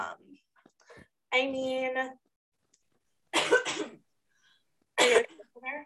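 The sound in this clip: Coughing and throat clearing from someone with phlegm in the throat: a few separate harsh bursts with quiet pauses between them, one drawn out with a rasping, voiced tone.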